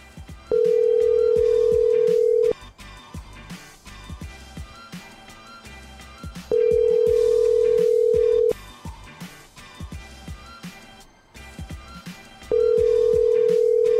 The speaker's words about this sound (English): Let's check his voicemail.